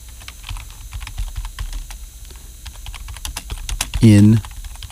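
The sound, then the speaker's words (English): Typing on a computer keyboard, done as an ASMR demonstration: many light, crisp key clicks in an uneven rhythm over a steady low hum, with a brief voiced sound near the end. “do the ASMR. Really type something. Type watermelon.”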